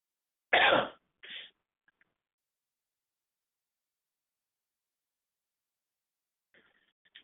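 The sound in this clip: A person clears their throat in two rasping bursts. The first is loud and the second is shorter and softer. A couple of tiny clicks follow, then a long silence and faint rustling at the end.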